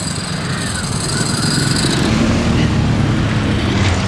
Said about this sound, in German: Wahrscheinlich aber nur ein lockeres Blech im Leerlauf.